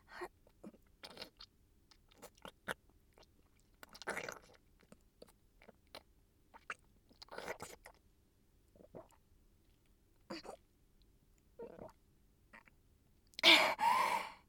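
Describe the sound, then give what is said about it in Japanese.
Ramen noodles are being chewed, heard as many short, soft, moist mouth sounds in an uneven rhythm. The sounds are quiet and spaced by brief gaps, with a louder burst near the end and no talk. “ラーメンがいっぱいじゃん。これを一回の噛んで飲み込んで、”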